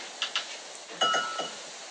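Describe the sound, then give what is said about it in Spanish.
A drinking glass clinks a few times as it nearly falls, giving bright, high, ringing taps in two small clusters that are spaced apart, with a short tonal ring lingering after. “Se me anda cayendo el vaso, les digo.”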